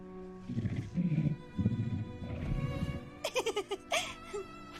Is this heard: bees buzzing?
no